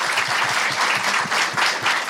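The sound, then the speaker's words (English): Audience applause at a town hall event, dense, loud clapping from many hands that stays steady for about two seconds. “Yasmin, big round of applause for Yasmin.”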